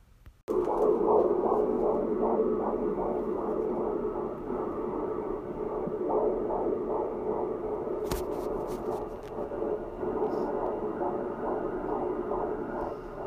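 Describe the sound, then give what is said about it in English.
An unborn baby's heartbeat at 24 weeks: a fast, steady whooshing pulse repeating a little over twice per second, continuous and fairly loud, with a brief sharp click partway through and no voices. “the sound you just heard, that is the heartbeat of my unborn baby daughter”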